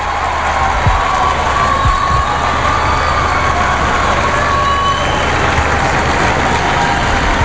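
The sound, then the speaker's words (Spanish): Steady street din of a large crowd gathered outside a church's Nativity facade for a tower inauguration, a dense, continuous wash of murmur and cheering with a low engine-like rumble beneath, fairly loud and unbroken throughout. “Ahí está, el sonido de la calle.”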